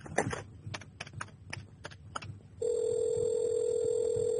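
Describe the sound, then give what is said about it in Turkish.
A hallway telephone is dialed: a series of sharp clicks, then a steady, unbroken line tone that holds to the end. “ben bir yeri aramak zorundayım. İzninizle. Tabii, telefon antrede. İstediğiniz yeri arayabilirsiniz.”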